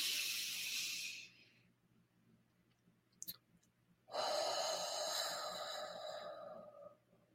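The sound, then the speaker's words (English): A breathing-exercise exhale: a long, soft, airy hiss of breath lasting a few seconds, following an earlier stretch of breath noise and a short quiet gap with a brief click. “I don't know if you could hear that, but there was a little bit of a sound when I did my exhale.”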